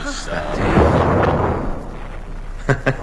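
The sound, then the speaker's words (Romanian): A cannon salvo fired in salute at a royal court: a deep, heavy boom swells up early on and rolls into a long, rumbling decay. “Nu vă speriați. S-a tras o salvă de tunuri în onoarea mea. Pentru asta nu trebuie să tresăriți.”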